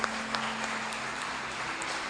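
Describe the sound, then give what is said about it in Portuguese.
An audience applauds during a church service, a moderate, continuous patter of clapping with a low steady hum beneath it. “Aplauda Jesus mais uma vez.”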